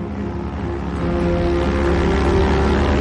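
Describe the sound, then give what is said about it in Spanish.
A light propeller plane flies low over an ash-covered island near mountains, descending. Its steady, humming engine drone has a low rumble and grows slightly louder. “una avioneta sobrevuela la isla, descendiendo cada vez más”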